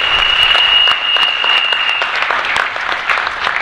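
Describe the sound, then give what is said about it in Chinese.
Audience applause at a lecture on organic fasting: dense, steady clapping from many hands for a few seconds, with a thin high whine over the first half. “掌声鼓励一下，好不好？掌声鼓励一下。”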